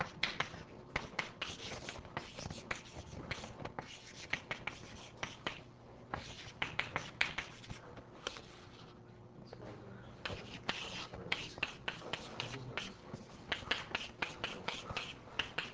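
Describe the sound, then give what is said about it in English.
Writing on a board as a physics problem is worked through: scratchy strokes and sharp taps in a dense, steady run of many short marks, quiet, with faint background hiss. “So again, I'm writing something which is kind of meaningless.”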